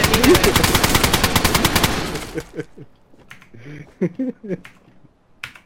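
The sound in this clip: Rapid automatic AK rifle fire in a video game: a loud, continuous burst of dense shots for about two seconds, then it stops and people talk over quieter scattered clicks.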